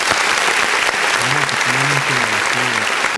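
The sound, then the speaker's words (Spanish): Loud, steady applause welcomes a guest on a talk show, with a voice speaking over the clapping before it stops abruptly at the end. “hay que ponerle aplausos.”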